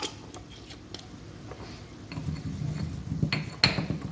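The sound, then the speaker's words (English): Spoon scraping and clinking against a bowl as oregano is mixed into food, faint at first with scattered light ticks, then a louder stretch of scraping in the second half. “All right, add in a little bit of the oregano. Mix it all together.”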